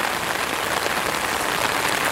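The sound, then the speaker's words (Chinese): Heavy rain falls in a park, a dense, steady hiss of drops with no breaks and no voices. “整个公园也就我们在这大雨天的时候爬山。哦，下雨了不能爬山”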